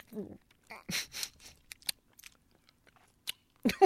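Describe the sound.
Sour cream and onion chips crunch in a few loud, crisp bites in quick succession, followed by quieter, sparse chewing clicks and a final burst of crunching.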